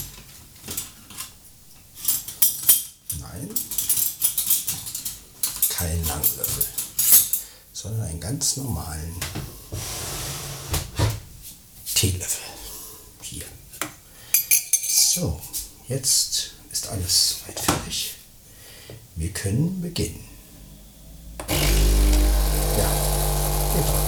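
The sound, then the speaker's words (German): A spoon stirs in a dish with many light metallic clinks, taps and scrapes of cutlery against crockery, irregular in rhythm and fairly loud throughout. “Brauchen wir noch einen Löffel zum Umrühren, ist ja klar.”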